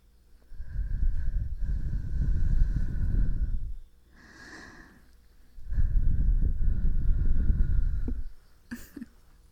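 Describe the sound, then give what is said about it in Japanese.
Breath blown toward the listener: two long, soft, breathy rushes with a much fainter puff between them and a small click near the end. “息吹きかけるよ。”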